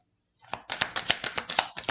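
Tarot cards are shuffled: after a short silence, a steady run of crisp papery slaps and riffles follows in a brisk, fairly even rhythm, moderately loud.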